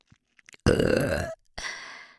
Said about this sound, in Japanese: 女の人がしちゃいけない下品できついゲップでしこるのが好きだもんね。ほんと変態。